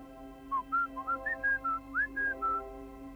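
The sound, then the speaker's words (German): A person gives a whistle as a signal: a short whistled tune of many clear, high notes that step up and down in pitch. It is fairly faint over a quiet background hum. “Da hörte ich den Pfiff.”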